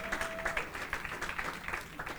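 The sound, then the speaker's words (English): A church audience clapping their hands in praise: steady, continuous applause from many people, fairly soft and even throughout. “Come on, give the Lord a hand clap of praise.”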